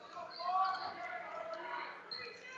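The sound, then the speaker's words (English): A basketball is dribbled on the court during a game against Cheboygan, a few soft bounces under a constant wash of crowd noise and voices. “And he's dribbling through his legs”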